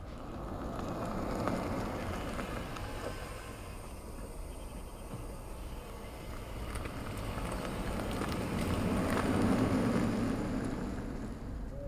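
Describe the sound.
An electric vehicle with no added warning sound approaches a crosswalk and drives away, producing a faint, steady rumble of tire and road noise mixed with wind-like hiss. The noise swells toward the end, then eases off.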